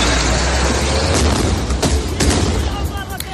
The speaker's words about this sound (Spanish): Las bombas y los ataques se han convertido en el sonido de estos días. Las últimas se escuchan en la frontera con el Líbano.